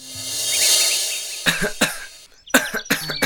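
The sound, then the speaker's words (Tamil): A person coughs repeatedly, harsh, throaty bursts in two clusters of several coughs each, with short gaps between them. “இருமிக்கிட்டே இருக்க இந்தா இத சாப்பிடு”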